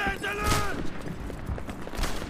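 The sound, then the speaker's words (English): Gunfire in the video game Medal of Honor Airborne, a few sharp shots cracking through a busy noisy background, with a brief voice at the start. “Oh snap, they're shooting.”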